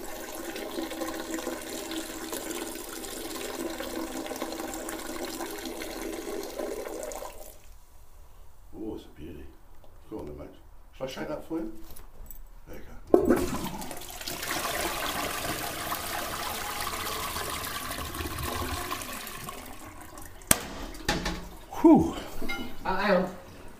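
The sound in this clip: A man urinates in a toilet: a steady splashing stream of water, later a rushing watery flow with light clinks, while people talk over it.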